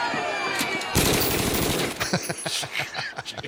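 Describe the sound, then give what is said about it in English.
Automatic gunfire from an AK-47: a dense, rapid burst of sharp cracks that then breaks into scattered, irregular shots, all loud and harsh. “He took out an AK-47. Let's play this cut right here.”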